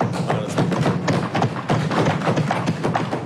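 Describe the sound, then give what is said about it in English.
Members of parliament bang on their desks in the chamber, making a dense, loud patter of overlapping thumps and knocks. The rattle continues steadily for the whole stretch. “PLP members of parliament banged on their desks as Prime Minister Philip Davis announced in parliament that preliminary data showed April 2025 in a $135 million surplus.”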